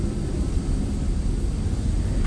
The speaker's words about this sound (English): Yes, there is a big plane, isn't there?